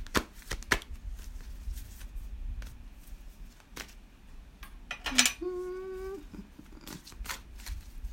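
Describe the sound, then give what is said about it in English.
A deck of cards is shuffled in a series of quiet, crisp riffling snaps and flicks scattered over several seconds, faint against a low background, with one brief tonal sound midway. “And then let's pull out the card for the day.”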